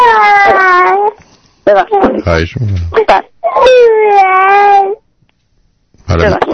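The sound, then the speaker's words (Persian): A baby cries in long, loud, wavering wails broken by short, choppy sobbing bursts, with brief silent pauses between the cries. “نه خواهش میکنم میتونید کاری بکنید که بچه آروم بگیرید.”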